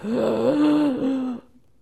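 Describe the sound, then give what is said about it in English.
A voice imitates a dying woman's last breath. It is a single drawn-out, moaning exhale of about a second and a half that wavers slightly in pitch, then cuts off abruptly into silence. “It was her last breath. It went like this.”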